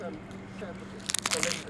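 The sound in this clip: Crunching bite into a strong raw onion: a few crisp, loud crunches cluster near the end after a quieter stretch with faint talk in the background.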